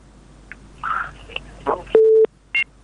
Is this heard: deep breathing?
no